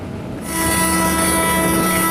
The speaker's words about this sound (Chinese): 伴随着笛声长鸣，搭载了38个集装箱的列车从厦门远海码头铁路专用线缓缓驶出。